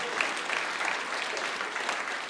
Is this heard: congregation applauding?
yes